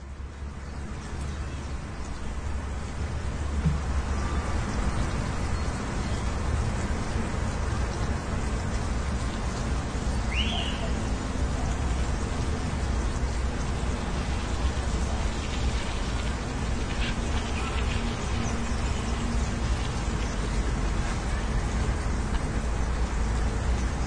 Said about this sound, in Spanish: nos resultaba curioso escuchar el paisaje sonoro de una orilla del río y que, como un murmullo al fondo, se escuchaba la ciudad, y la ciudad eran coches.